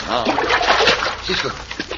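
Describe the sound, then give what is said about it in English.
Splashing and sloshing water as two unconscious men are thrown down an old well, with voices mixed in over the churning water. “threw both our friends, while still unconscious, down an old well, thinking they would be drowned. But the cold water revived them.”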